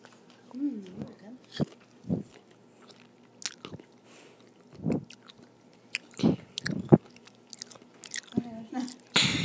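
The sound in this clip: Biting and chewing a ripe strawberry with its top cut off: several short, soft, wet crunches spaced irregularly, with quiet pauses between bites.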